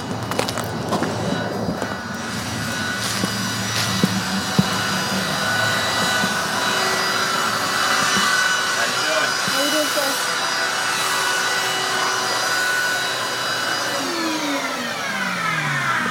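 Vacuum cleaner sucking up sawdust from the ground of a carport with lumber on sawhorses: a steady, unbroken whooshing roar with a whining edge that holds an even loudness for the whole stretch.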